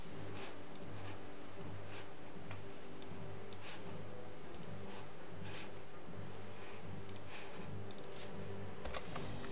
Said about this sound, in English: This is a cell phone. Alright. I'll type this in.